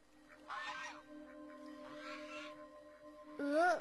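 Goose honking, a few hoarse, harmonic honks, the last louder and rising in pitch, over a steady background tone.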